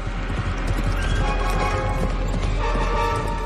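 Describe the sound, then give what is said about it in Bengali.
A horse gallops hard across a courtyard toward a ten-foot wall, its clip-clop hoofbeats packed into a loud, continuous drumming with a whinny rising over the pounding. “ড্যাটানিয়ন তার ঘোড়াটাকে পিছিয়ে নিয়ে এসে দৌড় শুরু করল। প্রায় ২০ গজ চওড়া উঠোনের ধারে ফুট দশেক উঁচু পাঁচিল, নির্ভুল এক লাফে পাঁচিল ডিঙিয়ে গেল ড্যাটানিয়নের ঘোড়া।”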